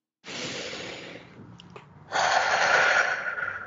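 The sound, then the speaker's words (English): A deep breath taken during a guided calming exercise for nervous habits: a long, airy inhale, a short pause, then a louder, fuller exhale of breathy rushing air, with no talk. “So take a nice deep breath.”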